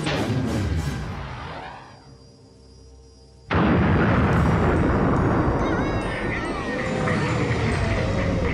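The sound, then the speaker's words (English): Sound effect of a torpedo firing and exploding: a whooshing sweep fades into a quieter lull, then a sudden loud blast bursts out and rumbles on to the end. “Use the force. Torpedo away.”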